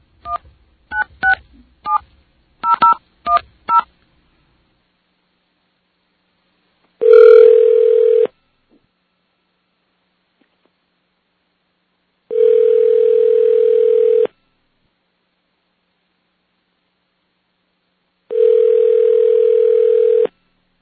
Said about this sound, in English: I think this might take four rings.